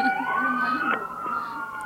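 An emergency vehicle siren wails on a street: a steady, high tone that rises at the start and then holds level.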